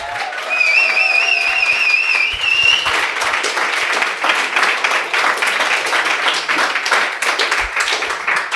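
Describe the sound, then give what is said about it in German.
A packed audience in a full Vi pop-up store in Berlin Mitte applauds with loud, dense, steady clapping throughout, and a few whistles come early on. “Wir sind im Pop-Up-Store von Vi hier in Berlin in Mitte und der Laden ist voll. Ihr könnt es hören.”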